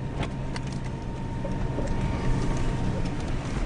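Steady, low engine rumble from a vehicle crawling in low gear, low range, at about a mile an hour. The drone holds even throughout with no breaks.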